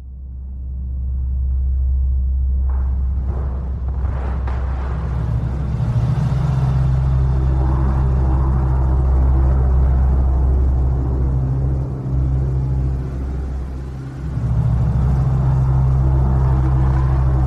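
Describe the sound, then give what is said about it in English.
Deep, steady droning rumble of pump room machinery, recorded for a soundtrack, swelling in over the first seconds with a few faint clanks early on, then holding a constant low hum with two brief dips near the end. “Those are the incredible sounds of the pump room”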